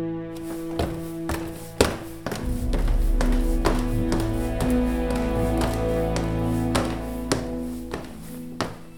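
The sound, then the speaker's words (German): Footsteps sound as a series of sharp, irregular taps over a sustained tonal music bed, with some heavier thuds among them. “Das war schon wieder das Geräusch und jetzt höre ich auch Schritte.”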